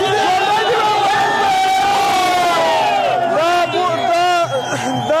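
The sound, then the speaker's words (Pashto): A crowd of youths and children chants slogans in front of the Cricket Board in Kabul at night, celebrating a historic cricket win over Pakistan. Loud, continuous massed voices rise and fall in shouted phrases. “په پلازمینه کابل کې د کرکټ بورډ مخ ته تیر شپه یو شمیر ځوانان او ماشومان راټول شوي او د پاکستان پر وړاندې د کرکټ د تاریخي بری په خوشحالي کې ژوندې دی افغانستان شعارونه ورکوي.”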